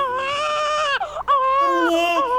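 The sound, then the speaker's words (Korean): A newborn baby cries in loud, strained wails. A sustained wail breaks off briefly, and then a second, longer bout of crying follows with a wavering, shifting pitch. “갓 태어난 조카 이산의 울음소리만 듣고”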